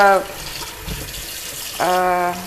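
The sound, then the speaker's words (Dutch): Tap water runs steadily while a bell pepper is washed under it, giving an even, hissing rush through the whole clip. “Ik ga ehm, de paprika even wassen.”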